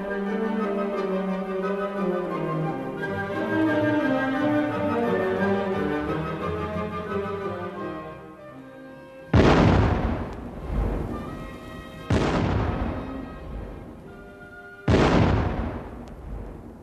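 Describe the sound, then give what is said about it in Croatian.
Bursting artillery shells and shrapnel erupt in a few loud, booming explosions in the second half, each trailing off in a long rumbling decay, after a sustained stretch of dramatic music. “Moje misli prekida fijuk i eksplozija rasprsnutih granata i šrapnela.”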